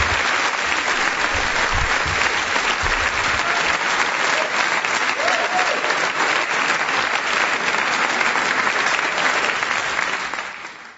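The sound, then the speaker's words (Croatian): Sustained applause used as a sound effect, dense even clapping that holds steady for about ten seconds before fading out at the end. “Da, stvarno bio veliki aplauz za dragocene informacije.”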